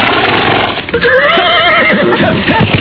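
A horse neighs in a loud, quavering whinny whose pitch wavers up and down over a rough, noisy background.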